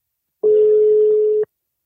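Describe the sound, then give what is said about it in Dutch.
Ringing tone of an outgoing telephone call: one steady, mid-pitched electronic tone lasting about a second, alone against silence. “We gaan de maker eens bellen”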